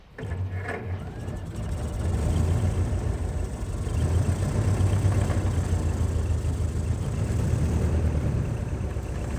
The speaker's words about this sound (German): Ich warf den Wagen wieder an.